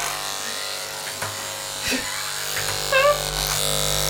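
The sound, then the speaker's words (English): Electric clippers buzz close to the ear during a haircut taken while sitting in a bath. A steady, droning electric hum runs throughout, broken by a few brief knocks and shifts in tone. “So you should be able to hear now, listeners. She's shaving near to my left ear.”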